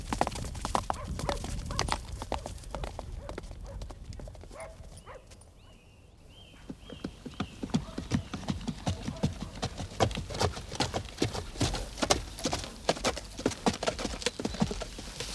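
Horses' hooves clip-clop as riders set off on a wolf hunt, a dense, irregular patter of hoofbeats. It eases briefly midway, then picks up again and grows busier.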